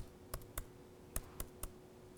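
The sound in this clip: Computer keyboard keys are pressed while editing text: five faint, crisp clicks in an uneven rhythm, first a pair and then a quicker run of three, with no talk over them.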